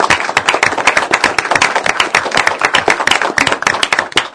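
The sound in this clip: Audience applause at a public utility district commissioners' meeting: many hands clapping fast and sharp, a loud, dense stream of claps that holds steady from start to finish.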